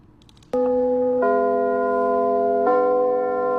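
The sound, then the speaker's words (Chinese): A theatre's curtain-raising bell rings at a Beijing playhouse, a loud, sustained, steady tone rich in overtones. It starts abruptly and holds evenly, gaining extra ringing partials partway through, with no voices. “每当首都剧场的启幕钟声敲响，戏剧的神圣感就会充满舞台。”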